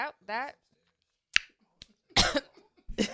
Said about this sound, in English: It got caught right in my throat.